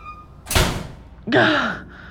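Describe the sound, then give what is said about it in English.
A door being closed: a heavy thunk, then after a short pause a louder squeaking, grinding scrape that trails off. “Okay, close the door.”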